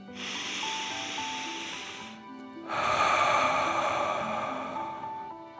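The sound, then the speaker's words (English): A slow, deep breath drawn in through the nose, then after a short pause a longer, louder airy exhale through the mouth, both over soft, gentle background music. “let's take 3 more deep dragon breaths. Deep breath in and out.”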